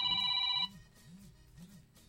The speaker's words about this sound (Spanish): Ah, ya están llamando, qué bueno.